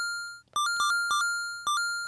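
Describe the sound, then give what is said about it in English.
An email notification sound plays as a bright electronic chime: a few quick two-note dings with clear, ringing tones, each pair fading slightly before the next. “I want to make my email sound something like this.”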